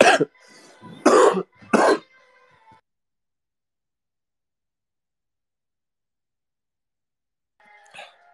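A person coughs three times in quick, loud, harsh bursts, then there is silence and one faint throaty sound at the end.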